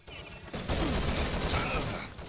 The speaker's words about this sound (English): a sniper shot from the SR-8